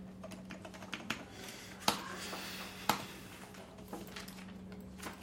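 Fingers type on a computer keyboard, writing up a complaint about bodily injury, producing quick irregular clicking keystrokes with a few sharper, louder key strikes and short pauses, without talk.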